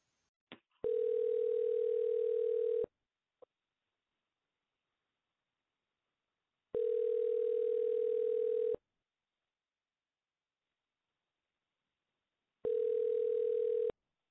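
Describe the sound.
Ringback tone of an outgoing telephone call: three steady, mid-pitched tone bursts of about two seconds each, separated by long silent gaps, with a faint click near the start.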